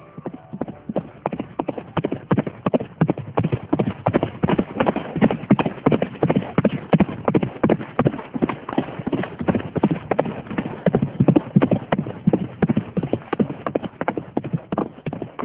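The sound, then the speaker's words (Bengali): Horse hooves clip-clop as soldiers ride in on horseback, a dense, rapid run of many hoofbeats at an even loudness throughout. “এটা আর কিছু শব্দ না, এটা হচ্ছে ঘোড়ার শব্দ। ঘোড়ায় করে সেনাবাহিনীর লোকজন আসছে”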